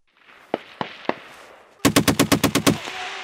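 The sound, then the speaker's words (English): Heavy machine guns firing on a snowy firing range at a mock bunker: three loud single shots, then a rapid, evenly spaced burst of about eight booming rounds, each cracking hard and ringing briefly afterward. “On a ridge overlooking a snowy field, U.S. paratroopers fire heavy machine guns at a make-believe enemy bunker on the tree line, providing their comrades below with covering fire.”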